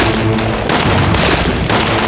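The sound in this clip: Gunfire in a battle as soldiers are ambushed from a hillside while guarding grain supplies: dense, continuous rattling blasts with several louder bursts of sharp shots breaking through.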